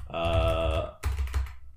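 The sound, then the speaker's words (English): Typing on a computer keyboard: a brief run of quick, crisp clicks near the end, following a sustained humming tone. “You're gonna be typing the whole time?”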